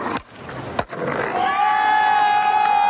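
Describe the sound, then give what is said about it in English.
Skateboard launching over a set of stairs at a plaza in 1991: two sharp board slaps ring out in quick succession, followed by a sustained, high-pitched cheer from the crowd. “That's the sound of a skater launching over a set of stairs at the plaza in 1991.”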